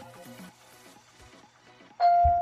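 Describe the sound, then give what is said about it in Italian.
A telephone rings: after a faint stretch of muffled, murmuring sound, a loud, steady electronic tone starts abruptly near the end and holds. “Aspettate un attimo che mi suona una... Ok, eccomi qua, scusate un attimino che suonava il telefono.”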